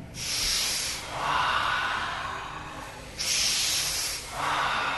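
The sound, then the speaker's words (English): Slow, deep breathing during a yoga-style meditation, two rounds of long airy breaths, each a soft hiss that swells and fades, steady and fairly quiet with no talking. “So we'll take an inhale, relax.”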